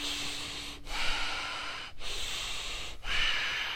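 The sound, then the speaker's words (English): Rapid panting breaths in a group breathing exercise at a live workshop in Sweden: loud, airy huffing that runs continuously, broken by three brief pauses. “Keep exhaling, keep exhaling, keep exhaling. Hold your breath out. Panting breath. Start.”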